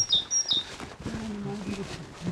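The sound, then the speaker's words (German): A great tit sings a few high, clear whistled notes at the start, followed by a person talking over faint outdoor background. “Guck mal, eine Meise.”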